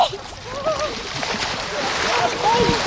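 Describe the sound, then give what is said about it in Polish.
Water splashes and sloshes as a person wades into an icy lake from a beach in winter, a continuous churning swish that stays fairly loud across the moment. “Tak, idę do wody.”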